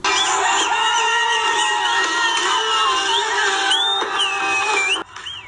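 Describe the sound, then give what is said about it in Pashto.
A loud Afghan crowd cheers and shouts to celebrate the national cricket team's win over Australia. The roar stays dense and steady, with high whoops and shrill calls rising above it, then cuts off sharply near the end. “د استرالیا په وړاندې د افغانستان د کرکټ د ملي ټیم پرونی بریا په افغانستان او بهر کې ګڼو افغانانو په شور او زوګ لمانځلې ده”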